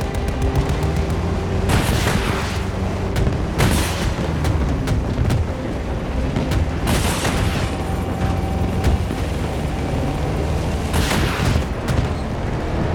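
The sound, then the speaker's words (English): Video game gunfire and tank shots come from behind: continuous rattling gunfire broken by a few heavy, booming blasts spaced several seconds apart. “Oh, there's one behind us too. We're getting shots from behind. Oh, tank.”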